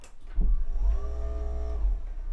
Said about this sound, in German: mit dem höhenverstellbaren Schreibtisch, der wirklich eine Wucht ist. Warte, ich kann mal für euch kurz hoch und runter fahren.